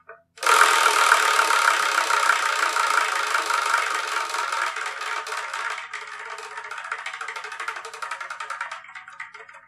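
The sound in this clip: A prize wheel spun by hand gives a dense, rapid ratcheting clatter after a brief tap. It starts loud, then gradually fades and slows into distinct ticks over about nine seconds.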